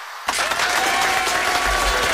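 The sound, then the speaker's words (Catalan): Studio applause breaks out on a radio morning show after a short silence, starting abruptly and settling into a steady, dense clatter of many hands. “Un aplaudiment per tots els que van entrar a l'estudi.”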